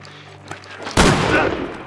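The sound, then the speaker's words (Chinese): A single loud gunshot fired during a tense armed standoff: a sharp, sudden blast about midway through, following a quieter stretch of low hum and trailing off in a long, noisy decay. “你他娘的真开枪！”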